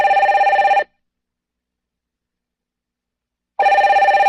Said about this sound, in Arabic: حتى رن هاتف والي الامن